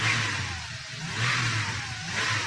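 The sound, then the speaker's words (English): Automobile engine revving: a steady low hum under broad, rushing engine noise that swells and eases several times. “The automobile is part of the sound.”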